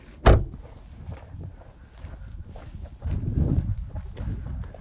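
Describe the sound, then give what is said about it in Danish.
A gate being closed at an estate in Damborg: one sharp metallic clank at the start, followed by a quieter, rough rolling and scraping noise that swells louder toward the end. “Der bliver lukket en port her. Der bliver lukket en port her.”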